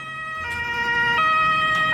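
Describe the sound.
Ambulance siren in Germany sounding steadily with a bright, piercing harmonic tone, with a slight shift in pitch partway through and a faint road rumble underneath.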